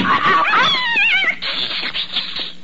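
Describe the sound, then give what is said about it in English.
A cat meows in a drawn-out, wavering cry that bends up and down in pitch, followed by a quieter, noisy stretch with a few soft thuds. “You cat, you! Don't you dare go in Dr. Gillespie's office. Meow.”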